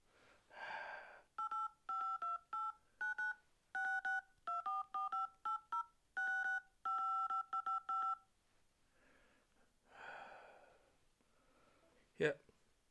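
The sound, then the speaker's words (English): Touch-tone keys dial an international number by phone: a long, uneven run of short, clear beeps at varying pitches, tapped in quick groups. Soft breath-like noise comes before and after, and a sharp click ends it. “Right, let me dial in now.”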